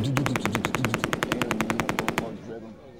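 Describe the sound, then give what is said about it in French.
Machine gun firing near a beach: a rapid, even burst of many shots, loud and steady for about two seconds, then stopping abruptly and leaving a low rumble. “C'est une mitrailleuse qui s'approche de la pointe.”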